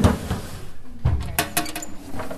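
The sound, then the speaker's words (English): Drawers of specimen bones in a paleontology museum being opened and rifled through: an irregular run of loud knocks, scrapes and light clinks, with no talk. “rifle through drawers filled with bones”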